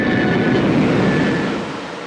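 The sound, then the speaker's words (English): The engines of an old four-propeller plane roar on takeoff down a runway. The sound is a loud, dense, steady roar with a faint tonal hum running through it, easing slightly toward the end. “The engines of the Madras Maiden rise to a fever pitch. As the old plane hurtles down the runway”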